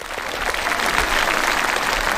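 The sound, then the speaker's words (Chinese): Children clapping in applause, a steady even patter of many hands that stays loud and continuous for the whole short stretch, with a faint crowd murmur underneath. “来，小朋友，来，你鼓掌”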